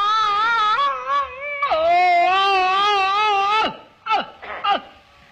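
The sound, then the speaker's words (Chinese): A performer imitates the exaggerated crying of a Peking opera old-man role, with long wavering sung wails, a sharp falling glide and then a few short sobbing bursts. “京戏的这个哭是用了夸张的手法。 哦， 跟我们生活中的那个哭啊有很大距离。 对， 老生一哭是这样。”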